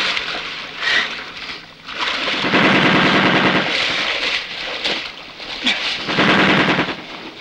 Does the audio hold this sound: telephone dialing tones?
no

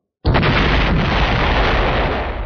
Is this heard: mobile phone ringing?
no

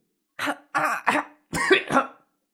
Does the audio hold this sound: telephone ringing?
no

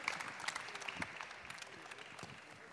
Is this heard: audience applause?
yes

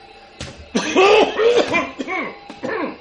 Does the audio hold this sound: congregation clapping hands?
no

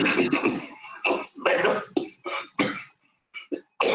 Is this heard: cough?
yes

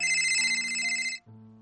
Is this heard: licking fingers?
no

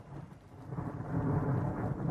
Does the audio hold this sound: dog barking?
no

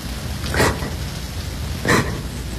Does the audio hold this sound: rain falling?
yes

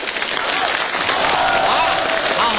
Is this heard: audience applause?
yes

